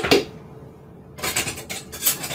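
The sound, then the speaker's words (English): Clinking and scraping of kitchenware as blended pumpkin blondie batter is transferred into a big mixing bowl: one short clatter, a quiet pause, then a few louder scraping bursts. “So now that this is all blended up, I'm just gonna put this in a big mixing bowl.”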